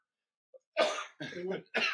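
A person coughs after a drink goes down the wrong way. A faint brief click comes first, then three harsh, raspy coughs in quick succession, with the middle one drawn out longest.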